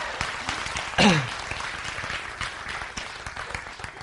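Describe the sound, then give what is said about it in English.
Audience clapping in response to a stand-up comedian's call for applause. A soft, steady patter of hands runs throughout, with a brief falling whistle-like tone near the start. “Can I get some clapping on that?”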